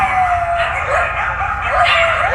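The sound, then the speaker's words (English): Coyotes in an abandoned development in West Hollywood give continuous high, wavering howls and yips that overlap and rise and fall, loud throughout. “Coyotes wandering the floors of this abandoned development in West Hollywood.”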